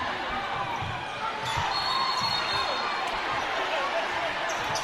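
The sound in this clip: A basketball is dribbled on the court during a Handley vs Lafayette game, with many quick low bounces in a steady rhythm beneath continuous crowd noise.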